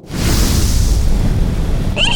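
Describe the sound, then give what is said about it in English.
Fire spews from a vehicle painted with dragons in a loud, roaring whoosh that holds steady for about two seconds before cutting off. “Oh my god, it actually spews fire!”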